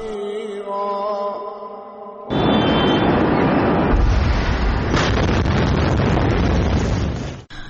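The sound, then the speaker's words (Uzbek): An explosion in Beirut, captured on a mobile phone, erupts suddenly after a couple of seconds of quieter sound. It becomes a loud, continuous, wind-buffeted roar that lasts about five seconds before cutting off abruptly. “Livanda poytaxt Bayrutni larzaga solgan dahshatli portlash guvohlarning mobil telefonlariga muhrlandi.”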